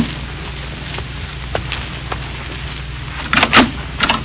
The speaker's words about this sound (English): Around 7 o'clock, there was a knock at my door.